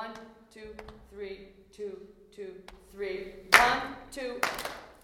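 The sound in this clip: Hand claps in a slow rhythm at tempo 109, falling on the downbeat and offbeat, alongside a voice speaking or chanting throughout; two sharp, loud claps stand out near the end.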